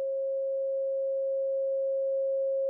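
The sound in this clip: A pure sine tone played through speakers, one steady, unwavering mid-pitched hum held for about three seconds with nothing else heard.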